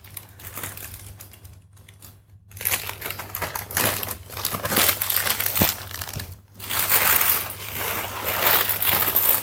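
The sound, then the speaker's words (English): Loud plastic packaging crinkling and crackling as a beach bag is slid back into its plastic, irregular rustling bursts running throughout with a couple of brief pauses. “Then we put the beach bag back in the plastic without messing up the tape.”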